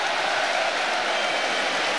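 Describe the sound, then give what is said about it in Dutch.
A stadium crowd applauds a substituted player at a Feyenoord football match, forming a steady, dense roar of clapping and crowd noise with no distinct peaks. “Daar gaat Targaline het veld uit. En komt Shaquille van Persie erin. Het applaus is er. Voor Targaline, de invaller.”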